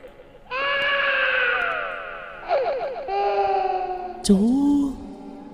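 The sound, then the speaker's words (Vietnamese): A child crying in a horror tale: high, wavering, tonal wails in several sustained bursts, ending with a sharp shriek that drops into a lower whimper. “Bỗng nhiên là có tiếng khóc. Là có tiếng khóc.”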